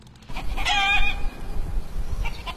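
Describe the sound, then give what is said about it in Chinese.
Hen calls from a distant farmyard in a mountain village: one drawn-out, wavering cluck-cry, then a few fainter calls over low ambient rumble. “走在陶棚村的山路上，可以听到远处农家院子里母鸡的叫声”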